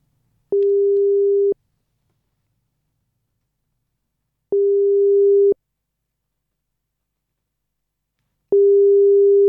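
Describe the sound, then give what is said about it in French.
Telephone ringing tone while a call is placed to someone, three steady, identical mid-pitched tones of about one second each, separated by roughly three seconds of silence, with nothing else heard. “Mais voilà, je vais directement essayer de l'appeler.”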